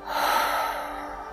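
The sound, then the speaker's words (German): Deep breathing in a guided relaxation exercise, drawn in through the nose and let out through the open mouth: one steady, airy rush of breath, fairly loud and unbroken, easing slightly toward the end. “Atme tief durch deine Nase ein und durch deinen geöffneten Mund aus.”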